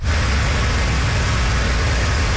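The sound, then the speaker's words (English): Cars drive over a flooded road in southern Cape Breton during heavy rain and high winds, producing a loud, steady rushing wash of noise over a low engine rumble, with no break throughout. “Motorists drive over a flooded road on southern Cape Breton.”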